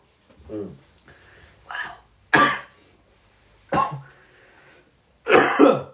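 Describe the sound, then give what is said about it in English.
Harsh coughing after taking a smoke comes in several rough, raspy bursts with short pauses between them. “Wow, wait, that's gonna make you cough.”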